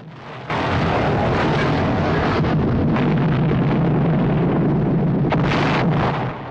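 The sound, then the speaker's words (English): An explosive charge detonates beside heavy guns with a sudden loud blast, then a sustained, roaring rumble of billowing fire fills several seconds before tapering off at the end. “Bergman and Craig run out of the control room and down the metal stairs as the charge goes off, sending a vast ball of fire billowing out past the heavy guns.”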